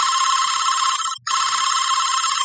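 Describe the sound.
A telephone rings unanswered with a bright, steady electronic trill that runs almost the whole time, broken once by a brief gap midway. No one speaks.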